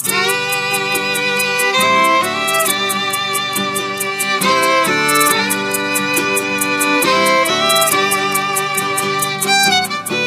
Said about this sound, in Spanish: tiene una canción, por ejemplo, que suena así.